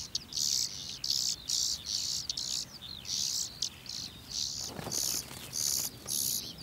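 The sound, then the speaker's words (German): Hungry bird chicks calling for food as parents bring insects and spiders, in an organic grain field. Many short, high, thin chirping bursts repeat in a steady rhythm, fairly faint throughout. “Futter für die hungrig rufenden Kehlchen.”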